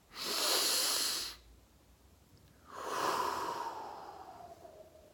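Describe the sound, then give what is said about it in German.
A deep breath drawn into the belly and let out again: a breathy inhale of just over a second, a pause, then a longer, softer exhale that slowly fades, quiet and with no talk. “Ganz tief in den Bauch einatmen und wieder ausatmen.”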